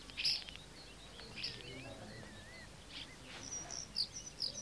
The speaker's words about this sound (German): Die Stare zwitschern.